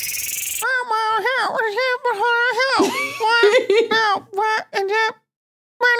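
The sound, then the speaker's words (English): A woman's voice imitating dragon noises in a rapid string of squealing, warbling cries that swoop up and down in pitch. A short silence comes before one last burst. “Everybody stay quiet so she has to do more dragon noises.”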